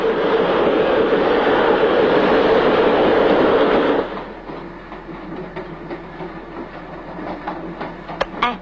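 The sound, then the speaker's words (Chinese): A train running on rails gives a loud, steady rolling rumble for about four seconds, then drops to a quieter rumble with faint scattered clicks. No voices are heard. “你说这火车要去澳洲的话该多好啊。”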